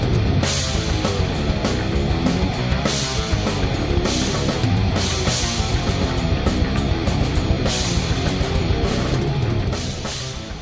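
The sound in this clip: Loud progressive metal band music plays in the background, with pounding drums and a dense wall of guitars running steadily throughout before easing slightly at the end.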